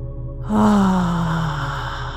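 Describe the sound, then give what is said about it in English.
After a deep breath in through the nose during a guided meditation, a single long, voiced sigh is pushed out through the mouth, starting strongly and slowly fading with a gently falling pitch. “Take a big, deep, full breath in through the nose and exhale out of the mouth with some sound.”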